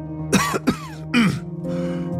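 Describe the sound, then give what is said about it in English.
A man clears his throat: a few short, gruff, rasping bursts, then a low, voiced hum that trails off. “After a moment, he cleared his throat.”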